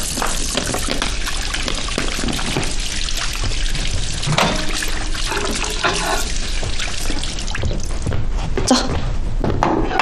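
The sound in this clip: Tap water runs steadily into a sink while hands are washed, a continuous splashing hiss with small irregular spatters throughout.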